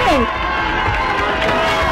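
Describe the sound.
Crowd cheering and shouting for a salsa band at a live concert, a loud, dense roar of many voices that holds steady throughout, with a few higher whistle-like calls rising out of it near the start.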